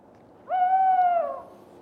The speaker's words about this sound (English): It's not often you see an owl in the daytime, is it?